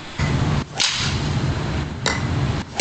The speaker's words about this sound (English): He's hitting it better than someone would hit it off the tee! He's drilling.